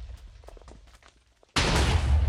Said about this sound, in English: So that'll just keep firing until the TNT, until the actual dispensers are in. Well, that one went far.